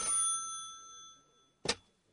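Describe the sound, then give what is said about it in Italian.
An old-style telephone bell rings in a hotel room, one bright metallic ring that decays over about a second into quiet, followed by a single short, sharp clatter. “Nella camera numero 21 dell'Hotel Duomo, il telefono squilla già da un po', quando finalmente una mano alza il ricevitore.”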